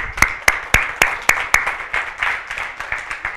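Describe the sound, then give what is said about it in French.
Applause at a Sunday church gathering: six loud, evenly spaced claps open a steady rhythm, then the clapping continues as a softer, quicker patter. “Peu importe les chiffres, je vais t'applaudir.”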